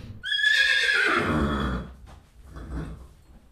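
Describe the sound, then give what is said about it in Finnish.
A horse neighs in its stall, one loud whinny whose pitch falls as it fades, followed by quieter low noises. “Nyt lähdetään sitten lähestymään tätä hevosta. Eli ensimmäinen se, että aina kun mennään tuonne karsinaan, niin katsotaan, että se huomioi sut”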